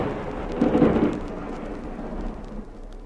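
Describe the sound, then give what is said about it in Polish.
Low rolling thunder with a hiss of rain from a December thunderstorm, swelling loudest early on, easing, then rumbling up again briefly before fading. “Zanosi się na burzę. Posprawdzaj wszystkie okna”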